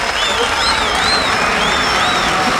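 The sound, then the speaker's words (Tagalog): A studio audience applauds to welcome a guest, a dense, steady patter of clapping. High wavering tones sweep over it throughout. “Eto po, palakpakan po natin ang ating cleanfluencer from Cebu, Rafi Cartalia.”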